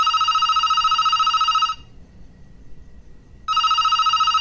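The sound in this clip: Telephone ringing on an outgoing call: two loud, steady electronic ring bursts separated by a silent pause of nearly two seconds.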